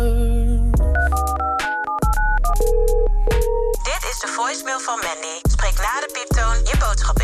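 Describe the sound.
Telephone voicemail tones: a series of electronic beeps and keypad tones at changing pitches, with a few abrupt breaks between them, followed by a voice speaking over the tones.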